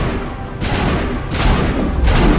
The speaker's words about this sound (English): What are you guys shooting at?